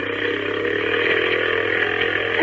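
A small motorboat engine speeds across water with a steady, buzzing drone that stays even and fairly loud for the whole clip, with no pauses or clear changes in pitch.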